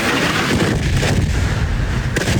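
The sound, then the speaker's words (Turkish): Explosions and artillery fire in Gaza, heard as a dense continuous rumble with a few sharper blasts breaking through, loud throughout. “Patlama sesleri dört bir yandan yükseldi.”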